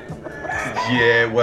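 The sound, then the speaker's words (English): A chicken is running loose. After a brief spoken phrase at the start, it gives a loud, drawn-out call that holds steady through to the end. “You've got your chicken, right? He's running loose at the moment.”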